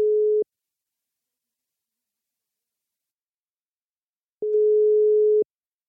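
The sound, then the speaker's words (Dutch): Telephone ringing tone heard while placing a call: a steady mid-pitched electronic tone, with a brief burst cut off at the start, a long silence of about four seconds, then one full ring lasting about a second. “Dus we gaan ook eventjes bellen met Dila.”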